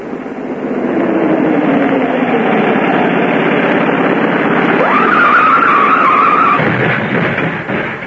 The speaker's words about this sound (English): I should have gunned the motor even more on the turn. I would have made it then.